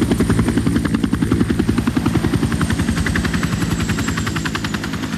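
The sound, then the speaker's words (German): A helicopter landing at a heliport, its rotor beating in a loud, fast, steady thump under a thin high engine whine that carries on throughout. “Der Helikopter landete.”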